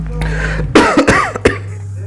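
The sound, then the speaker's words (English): Coughing and throat clearing from someone who choked on something that went down the wrong pipe: a few harsh, loud bursts in quick succession following a low hum. “Then get choked up. Went down the wrong pipe. Cleared my throat.”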